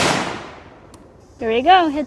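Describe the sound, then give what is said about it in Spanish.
A single sharp gunshot from a hacked precision rifle cracks loudly at the start and trails off in a fading tail. A short stretch of quiet follows, then a voice begins speaking. “Va a fallar. Va a disparar en el blanco de la izquierda en vez del de la derecha.”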